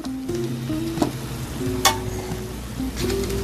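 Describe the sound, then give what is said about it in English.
Butter sizzles in a hot pan of gnocchi: a steady, dense crackle and hiss that holds level throughout, broken by a few sharper pops. No one speaks. “So here's a little secret now. Add a little bit of butter.”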